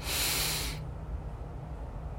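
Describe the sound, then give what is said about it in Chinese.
A deep inhale during a slow late-night breathing exercise: a soft, airy hiss lasting under a second before fading into quiet background noise. “再一次吸气，”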